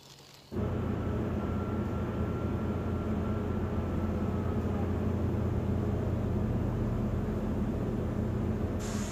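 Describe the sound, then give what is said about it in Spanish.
Steady, loud roar inside a military airplane cabin in flight: a dense, low-heavy engine and airflow drone that begins abruptly after a brief quiet moment and holds unchanged to the end. “Estamos de camino a Reino Unido en un avión militar.”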